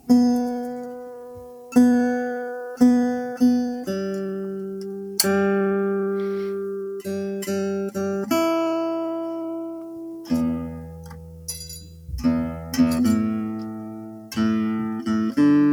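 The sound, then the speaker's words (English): Acoustic guitar fitted with new strings being tuned, with many single plucked notes, each ringing out and fading, repeated at shifting pitches as strings are adjusted, alone without voices. “Let me grab my guitar. I'm going to have to tune it because it's got some new strings on it.”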